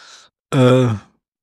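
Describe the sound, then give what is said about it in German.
Human voice imitating asthmatic panting breath: a short breathy intake, a brief pause, then a loud, voiced, groaning exhale that fades out. “So, schön also asthmatisches Schnaufen.”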